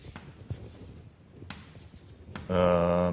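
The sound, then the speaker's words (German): An equation is written out by hand again, heard as several light, scratchy strokes of a pen or chalk in irregular bursts. A voice starts speaking at the end. “Ich schreibe es nochmal hin wegen”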